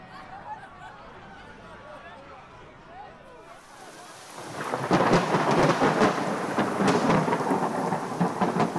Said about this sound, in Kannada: ಪಾರ್ಕಿನ ಬಳಿ ತಾಪಮಾನ ತಣ್ಣಗಾಗಿತ್ತು ಧಾರಾಕಾರ ಮಳೆ ಸುರಿದಿತ್ತು